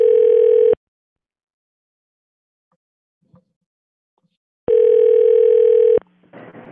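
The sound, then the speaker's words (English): A telephone tone sounds while calling a restaurant: a loud steady buzzy tone in two bursts, a short one, then a long pause, then a longer one, which ends in a faint low hum. “let's call a Denny's. Beep.”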